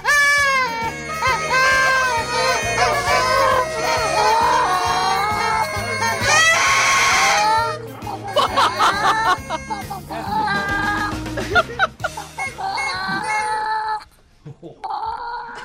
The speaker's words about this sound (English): What is that? We got a chicken to come loose there, in here.